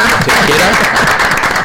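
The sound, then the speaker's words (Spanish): Studio audience applauding the way airline passengers clap after a landing, a brief burst of loud, dense clapping held at an even level. “¿Podemos aplaudir como hace la gente en los aviones para aterrizar? Hemos aterrizado, bien, venga.”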